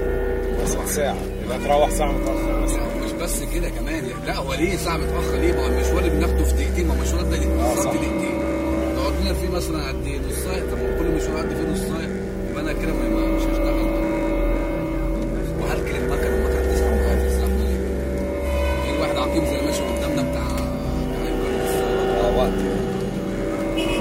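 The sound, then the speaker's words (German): A taxi in stop-and-go city traffic gives a steady, low engine rumble that swells and eases over the whole ride, with voices over it. “Die Taxifahrt, oder besser das Stop and Go, geht weiter. Und ich sage, dass dieser ganze Verkehr ihm doch mindestens eine Stunde klaut.”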